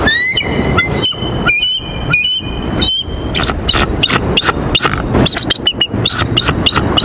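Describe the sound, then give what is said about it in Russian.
Bald eagle calling in a series of thin, high piping whistles and chirps. Sharp tonal notes repeat at first, then give way to quicker, denser chattering calls over a rough background noise, loud throughout. “А вот так на самом деле звучит гордый белоголовый орлан.”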